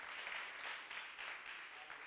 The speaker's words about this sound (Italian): Vogliamo applaudire e benedire il Signore.